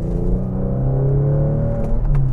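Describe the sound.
A car engine drones as the car drives onto a freeway, a low, steady rumble whose engine tone climbs gently as it gains speed. Nobody talks over it.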